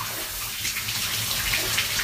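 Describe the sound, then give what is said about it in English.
Cold shower water runs in a steady, loud hiss of spray and splashing that continues unbroken, with no voices. “it's not quite like a normal shower, although it's actually got a bit colder again. Just put the head under.”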